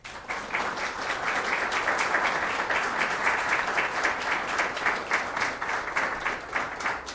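Warm applause welcomes an author at a book event: a crowd claps continuously after a quick swell at the start, holding a steady, moderately loud patter to the end.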